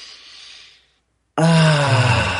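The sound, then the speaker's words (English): A deep breath taken to clear the mind before an affirmation exercise: a soft, breathy inhale fades out, a brief silence follows, then a loud voiced exhale like a heavy sigh. “So we're going to take a deep breath together first to clear it all out.”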